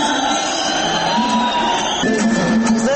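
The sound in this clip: Clamour of an audience at a Kazakh aitys, with dense, continuous crowd noise, shouts and whoops throughout, loud and unbroken.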